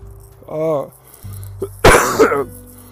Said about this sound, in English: I'm really sorry for coughing so much.